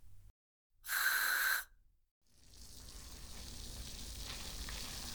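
Carbonated shampoo lathered between the hands gives a soft, continuous fizzing and crackling hiss that builds slightly and runs steadily to the end.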